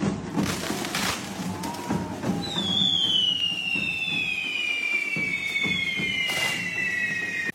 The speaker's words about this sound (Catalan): Són els sons d'alguns dels moments que han brindat els Diables de Castellterçol dissabte a la nit amb un espectacular correfoc que ha estat tot un acte de masses.